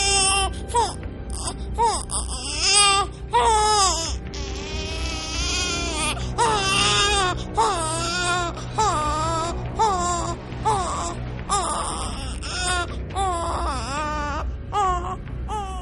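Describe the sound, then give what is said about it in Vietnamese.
Piercing wails like a crying infant, from a wounded monster thrashing on the ground: loud, repeated sobbing cries with wavering, rising and falling pitch over a steady low background. “ra sức gào khóc, tiếng khóc chói tai nghe mà nẫu cả ruột cả gan”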